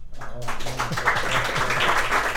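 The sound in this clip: Audience applause breaks out after a brief quiet start and continues as a steady, dense patter of clapping over a low hum.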